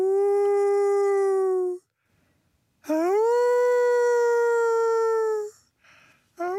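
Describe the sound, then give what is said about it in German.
A man imitates a wolf howl as an audiobook character: two long, steady, tonal howls, the second swooping up at its start, each held for a couple of seconds, followed by a couple of brief yelps. “Dieses Wolfsgeheul stammt nicht von einem Tier, sondern von Lorenzo, einer der drei Hauptfiguren aus dem Hörbuch »Wo die Toten sprechen«. Lorenzo sieht aus wie ein Wolf”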